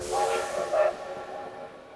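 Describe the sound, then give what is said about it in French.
Steam train whistle and hissing steam as a freight train loaded with heavy dismantled machinery departs for Bordeaux; a sustained whistle tone with short louder blasts rides over steady hiss, then fades. “lorsque le train était complet, ce, train partait pour Bordeaux.”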